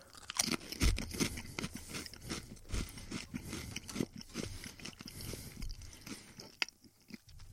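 Crunching and chewing of Pringles potato chips: many crisp, dense bites and mouth sounds in a steady, quiet stream, with no talk.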